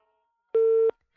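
A phone line disconnect tone: one short, steady electronic beep at a single mid pitch, sounding alone against silence.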